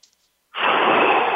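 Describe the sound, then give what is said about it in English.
A big, deep, noisy breath follows a moment of quiet, a loud, steady rush of air lasting about a second, taken alone as part of a meditation exercise. “take some big, deep breaths. Just big, deep breaths like this.”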